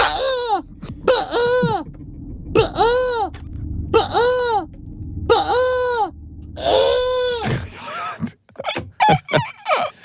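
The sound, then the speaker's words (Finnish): A person imitating a crane's call with six loud, throaty trumpeting honks in a steady rhythm, each arching up and down in pitch, followed by short scattered breathy sounds. “Tässä on kurki.”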